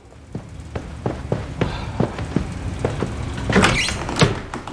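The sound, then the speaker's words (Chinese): A door is opened after a run of short, evenly spaced knocks or clunks. A louder, rattling burst of movement comes near the end. “赶紧开门。”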